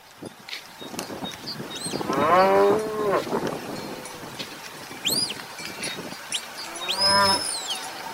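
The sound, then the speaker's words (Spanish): Cows mooing on a farm, a few drawn-out, low lowing calls that swell and fade, with fainter higher cries between them and no talk. “Benjamino llevó las vacas al campo”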